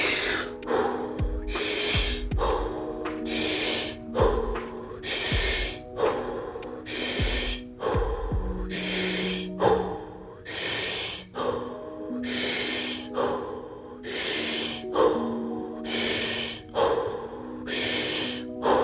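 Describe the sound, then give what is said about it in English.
Deep, rapid breathing comes from a breathwork round of 20 breaths. Loud inhale and exhale bursts repeat in a steady rhythm about once a second, over a soft sustained tone. “And we go again, round 2, 20 breaths.”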